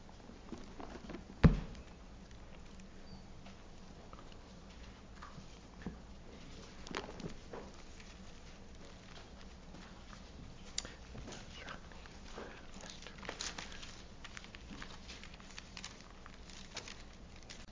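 Faint, sporadic rustles and soft taps of Bible pages being turned while someone hunts for a verse, scattered over many seconds of near quiet, with one sharper click early on.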